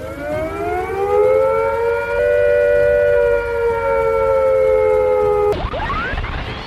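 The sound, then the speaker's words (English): A civil defence attack warning siren wails loudly and steadily, its pitch rising slightly and then easing back over several seconds before it cuts off abruptly near the end. “If attack is imminent, you will hear the attack sound like this.”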